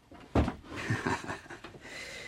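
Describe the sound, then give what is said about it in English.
A door shuts in an abbot's room at an abbey with a heavy, low thud, followed by a few softer knocks and shuffles, all quiet. “do come in and shut the door”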